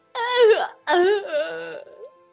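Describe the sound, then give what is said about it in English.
A voice imitates a woman crying and sobbing while clinging to someone's leg: two loud wailing bursts, the first rising then breaking off, the second longer and trailing into quieter, shaky moans. “She cries harder. Still wrapped around my leg.”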